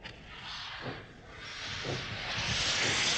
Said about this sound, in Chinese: 开往东京方向的快车就要开车了，请送客的人马上离开车厢，列车就要开了。